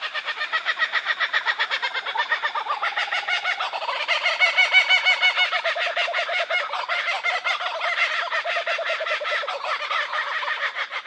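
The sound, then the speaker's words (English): A group of four or five kookaburras calls together in a territorial chorus of chattering and laughter. Rapid, rhythmic cackling pulses run throughout and swell louder in the middle before continuing at a steady level. “It's sort of letting other kookaburras in the area know that this is their territory. So they get together, they have a bit of a chat, then they go into the full laughter song.”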